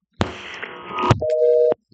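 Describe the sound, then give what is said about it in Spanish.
Telephone busy tone after a dropped call: harsh, loud line noise gives way to a steady mid-pitched tone that cuts off abruptly. A second tone starts at the very end. “Ay, se me fue la llamada. Parece como si alguien hubiese intervenido ahí en la línea y se hubiese caído.”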